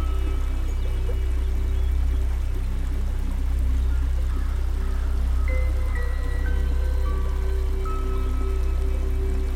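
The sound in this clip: Flowing river water passing by in a steady, even current, a continuous broad rushing wash with no clear breaks or surges, heard alone without voices.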